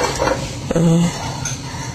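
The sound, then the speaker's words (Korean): Vegetables are stir-fried quickly in a pan over high heat. A utensil clinks and scrapes against the pan over a steady sizzling hiss, with one sharper clatter partway through. “그래서 야채는 이 센 불에 재빨리 물기만 거두을 정도로 이렇게 재빨리 볶습니다.”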